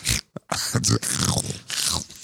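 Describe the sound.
Crunchy chewing on a beef jerky stick, loud and ragged, coming in several broad bursts with short gaps between them.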